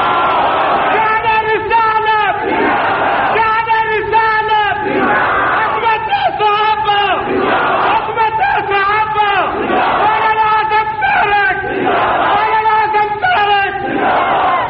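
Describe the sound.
A large crowd at a religious address chants in unison in response to the Nara-e-Takbeer call. The loud, rhythmic phrases repeat many times at a steady pace without a break.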